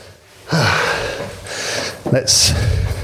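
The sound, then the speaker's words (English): Heavy, gasping breaths from someone out of breath after climbing many stairs up to an office, coming in a couple of loud, rough bursts with a short pause between them. “And no doubt you will hear me getting out of breath live on the podcast.”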